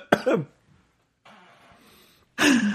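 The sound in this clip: Throat clearing from a dry throat: a few rough, raspy bursts with a breathy, hoarse stretch between them, and no words spoken.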